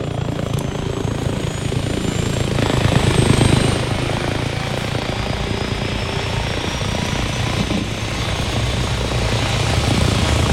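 An enemy helicopter in a combat video game gives a steady whirring rotor and engine drone for the whole stretch, swelling slightly louder midway, with a faint high whine above.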